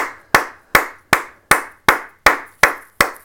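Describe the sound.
Handclapping after a hockey player's milestone of 185 points in 200 NHL games: eight sharp, evenly spaced claps at a slow, steady beat, each fading quickly, with no voices.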